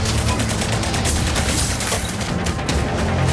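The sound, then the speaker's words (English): Gunfire rattles continuously through a video game firefight against an enemy machine, a dense, loud barrage of overlapping shots and booms with no pauses. “It's a grenade. We're getting shot at by the Goliath now.”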